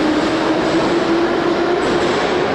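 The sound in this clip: Subway train running through the Tbilisi metro: a steady, loud rolling rumble with a constant tonal whine carried through the whole stretch, with no voices.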